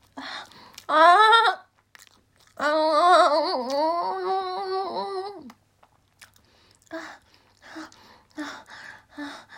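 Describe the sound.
Crunchy food is chewed in a few short, crisp bursts near the end, as someone works through a fourth piece. Before the chewing, a voice makes drawn-out strained vocal sounds.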